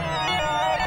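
A Yamaha DX7 FM synthesizer holds a bright, buzzy sustained tone shaped by LFO modulation, the sound wavering gently throughout.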